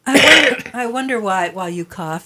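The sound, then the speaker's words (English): A rough, noisy cough or throat clearing from a man bursts out first, then gives way to several voiced, strained vocal sounds at a moderate level. “So I'm going to cough a little.”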